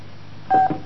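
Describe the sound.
One brief telephone keypad tone sounds as the digit 3 is dialed to accept a collect call from a county jail. It is a short, steady beep lasting a fraction of a second over faint line hiss.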